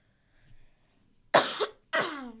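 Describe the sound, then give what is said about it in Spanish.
Harsh coughs from a person who has a cough: a couple of abrupt, raspy bursts in quick succession after a faint breathy sound, with no talk over them. “Perdón si frené, es que tengo tos.”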